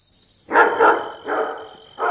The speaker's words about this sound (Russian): Однако у вас сердитый пес. Мне кажется, он так и норовит укусить меня за ногу.